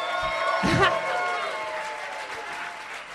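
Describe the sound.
An audience gives steady, fairly soft applause with some cheering as comedian Jeff Garlin is introduced on a talk show. A voice is briefly heard over the clapping near the start.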